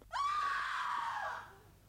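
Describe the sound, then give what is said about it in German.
Women screaming: one high, piercing shriek that holds a steady pitch for about a second before trailing off, heard alone. “Was für ein Geschrei ist das? Geschrei von Weibern, teurer Lord.”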